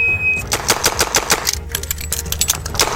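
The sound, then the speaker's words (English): A Model 6 revolver fires two rapid strings of sharp, loud shots, with a brief pause for a reload between them, all packed into about three seconds. “6 shots, a reload, and 6 more in 3 seconds with a Model 6”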